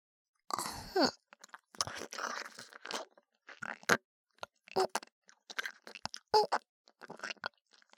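Wet ASMR mouth sounds act out eating the listener's ear: soft smacking, crunchy chewing-like clicks and moist tearing noises come in irregular clusters separated by short silences, quiet and close.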